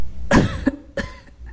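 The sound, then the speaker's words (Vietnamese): An elderly woman gives two short, light coughs, with a faint catch between them. They sound dry and throaty against quiet background hiss, with no voices. “Lão nhân già ho nhẹ một tiếng.”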